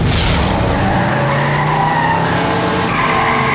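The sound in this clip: Car tires skidding and squealing under a loud engine roar on a road, a sustained harsh screech that stays strong for the whole stretch without pause.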